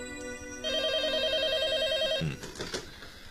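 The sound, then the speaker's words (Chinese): A telephone rings in a steady, warbling electronic trill lasting over a second, over a constant background tone and followed by a few brief clattering knocks. “可就在这个时候，电话铃响”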